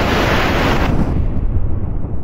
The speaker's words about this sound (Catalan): Aleshores esclata un gran tro.